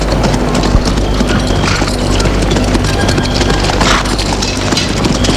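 Hooves clip-clop as a horse-drawn cart departs, a steady beat of hoofs under dense, constant loud noise, with no voices.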